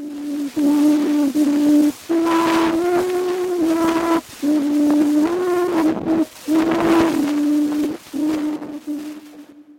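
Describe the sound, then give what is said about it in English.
An 1860 phonautograph recording of a person singing Au Clair de la Lune: a lone voice holds slow, sustained notes of the melody, broken by short gaps, over heavy hiss and crackle. “That's a recording of someone singing Au Clair de la Lune. It was captured on a device called a phonautograph in 1860, making it the earliest recognizable recording of a human voice.”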